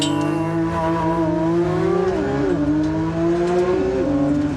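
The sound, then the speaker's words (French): A sports car engine roars as it accelerates from a launch-control start, a loud, continuous rising drone whose pitch climbs steadily, dropping sharply twice at gear changes before rising again. “On va faire tir en launch control. Allez, je te le fais le décompte. 3, 2, 1, go !”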